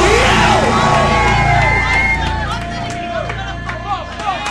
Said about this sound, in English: Can somebody please make some noise if you're feeling what we're feeling inside here right now for the W?